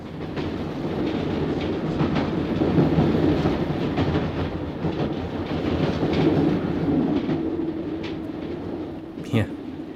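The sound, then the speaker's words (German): A train rides along the rails with a steady, loud rumbling roar and a faint rhythmic clatter throughout, and a short sharp click near the end. “Da saß ich nun also im Zug nach Sea Valley.”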